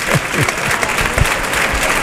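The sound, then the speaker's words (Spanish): A bullfight crowd gives a matador an ovation, a dense, loud wash of applause that stays steady throughout with no clear pauses. “Qué bien está la ovación.”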